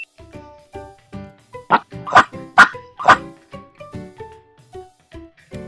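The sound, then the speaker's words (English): A dog barks over and over, about fifteen sharp, mid-pitched barks in a steady, fairly quick rhythm, with the loudest ones near the middle and nothing else heard. “Dog.”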